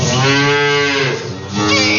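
A cow moos at milking time on a rainy early morning: one long, loud, low, drawn-out call, with a second moo starting just at the end.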